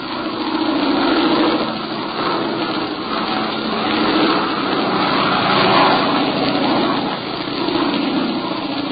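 Engines of a newly completed bomber aircraft pulling away, a continuous droning roar with gentle swells in loudness and no voices.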